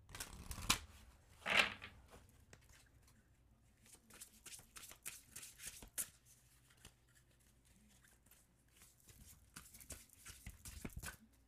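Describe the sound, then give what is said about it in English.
Large tarot cards being shuffled, giving faint, irregular papery rustling and flicking with a few sharper bursts near the start and a busier patch of quick flutters toward the end. “These cards are really big. Really, really big. So you might just have to intuitively draw one.”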